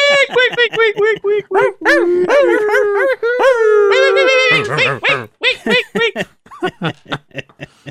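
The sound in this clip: A dog howls in a loud series of long, wavering, sliding tones that rise and fall, then breaks into short, choppy yelps toward the end.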